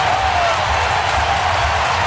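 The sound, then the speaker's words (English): Crowd noise fills a Brewers baseball game heading into the bottom of the fifth inning: a steady, dense roar of many voices with a low rumble beneath, holding level throughout without a clear break. “Crowd coming alive as we go to the bottom of the fifth inning.”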